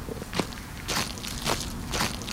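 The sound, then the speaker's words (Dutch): Footsteps of people walking away from a museum overlooking the Mediterranean Sea: four soft, crunchy steps spaced about half a second apart, fairly faint. No one talks. “We lopen even weg bij het museum en hier hebben we een prachtig uitzicht over de Middellandse Zee.”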